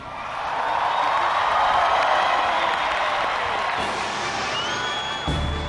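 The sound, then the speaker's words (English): Dense crowd noise from hundreds of thousands of young pilgrims gathered on Barangaroo wharf by Sydney Harbour for the World Youth Day opening Mass, a steady, loud roar of cheering and voices sustained throughout. “Hundreds of thousands of young pilgrims flooded Barangaroo, an open wharf east of Darling Harbour in Sydney Tuesday evening”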